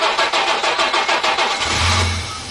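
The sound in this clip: A car engine starting: the starter cranks with rapid, rhythmic pulses, then the engine catches and settles into a low, steady rumble that slowly fades.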